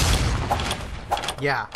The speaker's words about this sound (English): Missile took you 682 damage. Yeah, you do not want to get hit by this.